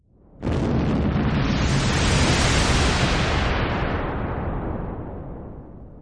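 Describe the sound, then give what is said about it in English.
Singularity missile striking ships in a video game, a sudden massive blast that bursts in after a brief lead-in and rolls on as a thick, roaring rumble, slowly dying away over several seconds. “Don't let me tell you what to do, but you probably should have broken formation before you were in range of the Singularity missile.”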